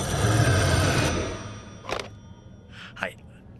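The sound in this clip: Telephone ringing, a loud, rattling ring that fills roughly the first second and then stops abruptly, followed by two brief, sharp sounds spaced about a second apart.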